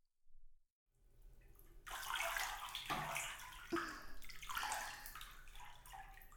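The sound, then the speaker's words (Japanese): Warm water poured over hair to wet it for a shampoo: a soft, steady rush of flowing and splashing water with a few gurgling swells, starting after a brief quiet moment. “それじゃ、お湯で髪を濡らしますね。”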